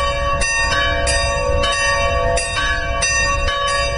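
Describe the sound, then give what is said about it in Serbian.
Church bells of a Serbian Orthodox church in Kalaz ring on the church's patron feast day, calling worshippers to the festive liturgy. Bright, clanging strikes repeat about every half second, blending into a continuous resonant peal with no voices. “Zvona Kalaške svetinje su u nedelju na svečarsku liturgiju pozvala vernike iz obližnjih naselja, Pomaza, Sentenreje, Čobanca i Budimpešte”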